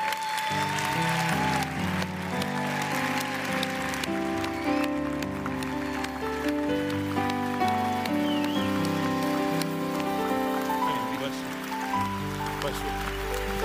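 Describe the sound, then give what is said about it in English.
A church audience applauds on their feet with dense, sustained clapping that runs steadily throughout, musical tones sounding beneath it. “Come on, Calvary Church. Come on, get up on your feet. Give Jesus a big hand today.”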